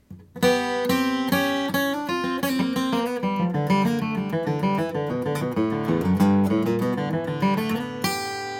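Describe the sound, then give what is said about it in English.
Guitar double stops, two notes on two strings at once, played as a walk-in intro to a solo: a quick, loud run of many plucked dyads on their own, ending on a held note. “You can also use that series of double stops, playing two strings at a time, two notes at a time, as an intro to a solo. Might sound something like this.”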